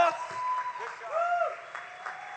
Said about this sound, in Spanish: Vamos, fuerte ese aplauso.